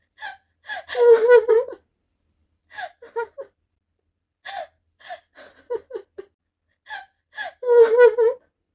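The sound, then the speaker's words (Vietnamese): Loud sobbing and crying from a person, with gasping, shuddering voiced cries in four bursts separated by short silent gaps. The first and last bursts are the strongest. “Du Diễu chỉ đứng đó mà không ngừng nức nở, không chịu được phải ôm lấy Lý Trị Phong, vùi mặt vào bờ vai y, khóc lớn đầy ân hận.”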